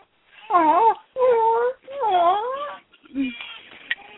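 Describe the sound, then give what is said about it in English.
A baby fusses and cries after spitting out her pacifier, giving three long, wavering wails with rising and falling pitch, then shorter, quieter whimpers. “Yes, she's very upset. She spit the pacifier out. Which she finds very distressing, that she spits it out and it doesn't immediately pop back in her mouth.”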